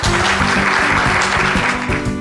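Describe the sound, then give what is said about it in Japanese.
Audience applause at the close of a corporate investor-relations seminar, dense and steady clapping that fills the whole stretch at an even, loud level without any voices. “どうぞ大きな拍手でお送りください。”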